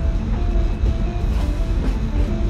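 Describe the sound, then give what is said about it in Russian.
A blue diesel shunting locomotive pulls a train of green and brown open freight wagons, giving a steady low rumble with faint clatter and a thin tonal whine throughout. “В 100 метрах за его спиной из-за поворота выезжает синий маневровый тепловоз. Он тянет состав из зеленых и коричневых полувагонов.”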